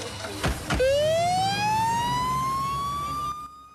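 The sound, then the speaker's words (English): An ambulance siren wails upward in a long, loud tone that climbs steadily in pitch and holds high before cutting off. Two sharp knocks come just before the wail begins. “They load him into a waiting ambulance.”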